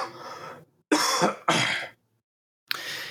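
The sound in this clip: Throat clearing and coughing from a dry throat after smoking a bowl: four rough, raspy bursts, with short silent gaps between them and a longer pause before the last one.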